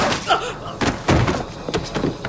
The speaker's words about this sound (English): Someone shoots at Kristen in the torso.